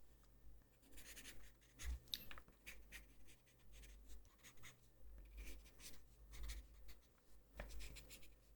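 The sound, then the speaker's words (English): A pen scratches faintly across paper as notes are written about a patient's recovery. The strokes are short and irregular, quiet, and no one speaks. “Let me just write that down in my notes.”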